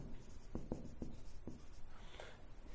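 Faint scratchy strokes of a pen drawing a diagram on a board. A few quick, separate marks come in an uneven rhythm, soft and brief.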